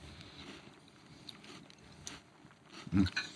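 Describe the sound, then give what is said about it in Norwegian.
Crunchy biting and chewing on a cracker during a tasting, mostly quiet before one loud, dense crunch near the end, followed by a smaller one. “Jeg skal sånn smake nå, jeg smaker med kjeks her først.”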